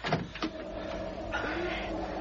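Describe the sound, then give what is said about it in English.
A door opens with a quiet scraping, sliding rumble and a couple of soft knocks at the start, then a low, even mechanical grind. “I'm going to open the door. Careful now.”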